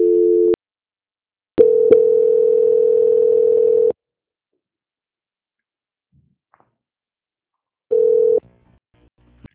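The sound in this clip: Telephone tones sound on the line as a call is transferred to a bank's quality-control department. There are three steady, low-pitched beeps, short, long and short, separated by silence.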